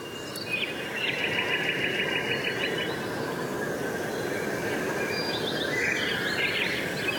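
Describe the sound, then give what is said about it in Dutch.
Nightingales sing at dawn in the Kennemerduinen dunes, with repeated bright trilling phrases rising above a constant, broad hiss of background sound. No voices are heard. “De nachtegalen tetteren nog flink door aan alle kanten.”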